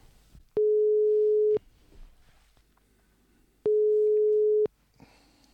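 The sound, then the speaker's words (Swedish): A telephone ringback tone sounds while a call is being placed: two steady beeps of one mid-pitched tone, each lasting about a second, separated by a long silent pause, clear and alone. “testa att ringa och se om han svarar.”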